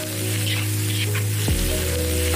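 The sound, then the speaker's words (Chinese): Pork intestines and lotus shoot pieces fry in a wok over high heat, giving a loud, continuous sizzle of spitting fat. It stays dense and even throughout, with a low steady hum beneath. “起锅烹饪，大火逼出肥肠的油脂，迅速加入切好的藕带段，”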